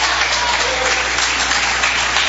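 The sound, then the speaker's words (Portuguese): Congregation clapping in worship during a church service, a dense, loud and continuous wash of hand claps that holds steady from start to finish. “Pode adorar o Senhor com palmas, pode adorar.”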